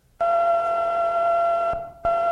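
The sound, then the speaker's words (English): Sonified radio signal of the fastest-known pulsar, spinning about 642 times per second, sounds as a steady, high-pitched buzzing tone with overtones. It drops out briefly near the end and then resumes unchanged. “The final one on here for many years was the fastest pulsar known. It rotates about 642 times per second. That's a note well above middle C on the piano. So it's a high-pitched audio tone. It sounds like this.”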